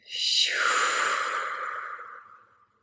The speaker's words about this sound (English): Closing out with a round of breath. Inhale. Exhale.